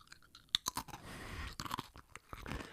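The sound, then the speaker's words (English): Potato chips crunched and chewed close to a microphone make many sharp, crisp, irregular crackles, fairly faint, with no talk. “So I just took a handful of the bag of chips and put it on the table. And that was like in retrospect, a terrible idea for an audio podcast.”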